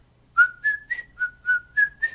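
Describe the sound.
A person whistles a tune in seven clear, fairly high notes with short gaps between them, each held briefly at a similar pitch, alone and without talk.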